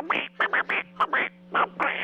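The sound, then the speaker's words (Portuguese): A voice imitates a quacking duck that is talking, producing a run of short, nasal, raspy bursts in an uneven, speech-like rhythm, with a steady low hum underneath. “Ô, Pato Donald, bom dia! Bom dia, Pato!”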